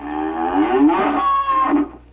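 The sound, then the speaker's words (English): A cow moos once in a long, steady, harmonic call that lasts about two seconds, then fades out quickly at the end. “two cows with one moo.”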